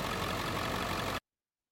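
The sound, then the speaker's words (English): A truck engine runs with a steady, loud low rumble, holding constant for about a second before cutting off abruptly. “Michelle, I did it. The truck works.”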